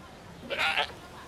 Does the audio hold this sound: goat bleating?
yes